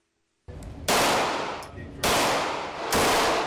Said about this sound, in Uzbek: Charleston shahri Somerville mahallasida o'q uzish mashqi o'tyapti